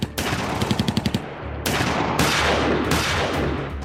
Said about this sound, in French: C'est un déchaînement de coups de feu.